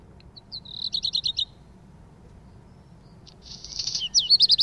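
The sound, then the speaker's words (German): Black redstart song played from a recording: a quick run of bright, high chirps, a pause, then a scratchy, buzzy phrase ending in sharp high notes, all over a low steady rumble. “Der heisst Hausrotschwanz. Von dem habe ich den Gesang mitgebracht. Den können wir jetzt mal hören.”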